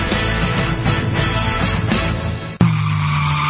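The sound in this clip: A car brakes with its tires skidding: a rough, noisy rush ends in an abrupt, sharp stop, followed by a low, steady hum.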